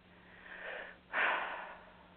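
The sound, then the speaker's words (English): A deep breath drawn in during a guided relaxation exercise makes a soft, airy rush that starts gently, pauses briefly, then swells louder and slowly fades, with no talking over it. “Take a nice breath in.”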